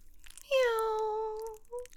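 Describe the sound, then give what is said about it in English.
A person imitates a cat meowing, producing one drawn-out vocal meow with a slightly falling pitch, followed by a short trailing note, fairly quiet overall. “Meow. Was that good enough? Meow. Meow.”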